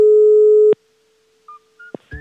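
A call being placed on a telephone opens with a loud, steady, single-pitched line tone that cuts off abruptly, followed by a few faint short beeps and clicks.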